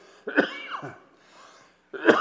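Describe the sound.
Two harsh coughs from a person during a church sermon, separated by a faint throat sound, alone with no talk.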